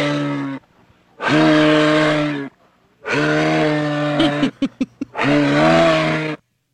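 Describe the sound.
A person's voice imitates a moose call: a few long, low, droning lowing calls with strong harmonics, broken by a cluster of short grunting bursts before the last call, loud and with no other sound.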